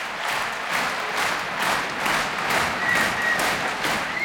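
Concert audience applause calling a young Russian pianist back for an encore at an outdoor château-park recital. Many hands clap together in a steady rhythmic beat, with evenly spaced pulses throughout.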